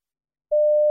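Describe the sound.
A single steady electronic beep on a telephone information line, sounding after a brief silence. The mid-pitched tone stays constant and fairly loud until it cuts off.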